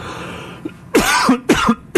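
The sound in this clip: Coughing after something went down the wrong pipe: three harsh, loud coughing bursts, each short and raspy, follow a faint throat catch, with brief pauses between them.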